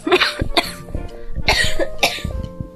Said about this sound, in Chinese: 咳嗽了，咳嗽了， 保重保重，我会把它卡掉。 好，记得要把我咳嗽的部分卡掉哈。